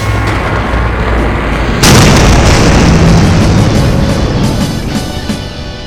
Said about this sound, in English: bring it down into the monster, killing it with one blow and watching with pride as it explodes like all the others.